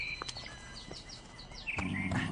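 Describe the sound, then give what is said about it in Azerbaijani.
Pet birds sing in a few short, high chirps and tweets over steady background hiss, with a low rumbling sound near the end. “Quşlarınız çox gözəl oxuyurlar.”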